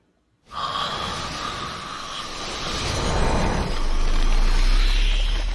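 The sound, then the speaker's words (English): A long, forceful blowing breath, an icy breath blast, comes in abruptly as a broad airy hiss and swells gradually louder, thickening with a low rumble toward the end. “Yeah, I just used my ice breath so you won't move.”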